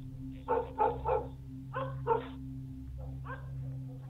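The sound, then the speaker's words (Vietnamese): A black dog barks outside by a gate, facing toward a river: three loose clusters of fairly soft, muffled barks, each of two or three quick yaps, over a steady low hum. “Con chó mực ở bên ngoài, nó tự nhiên chĩa ra ngoài cổng, rồi hướng ra phía sông mà sủa nhấm nha nhấm nhặng.”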